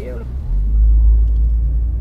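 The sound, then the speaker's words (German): Low, steady engine rumble of a car driving into the Onkalo spent nuclear fuel repository tunnel, a steeply descending four-kilometre granite tunnel on a Finnish Baltic island, heard after a brief voice at the start. “Wir fahren jetzt nach Onkalo hinein, unserem Endlager für verbrauchten Nuklearbrennstoff.”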